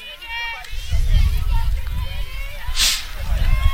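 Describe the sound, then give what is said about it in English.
Wind whips across an outdoor softball field during a game, buffeting the microphone in low, rumbling gusts that swell and ease, while indistinct voices and crowd babble murmur underneath. “As mentioned, you might be able to hear it through our headsets. That wind is it's kind of whipping out towards right field today.”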